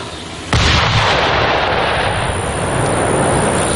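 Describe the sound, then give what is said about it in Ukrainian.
A large bomb dropped onto an enemy shelter explodes in a sudden loud blast. The blast swells into a sustained, dense roar that stays strong to the end. “скидають перший снаряд поменше, щоб прицілитися. А слідом до ворога летить вже велика бомба, яка може повністю знищити укриття загарбників.”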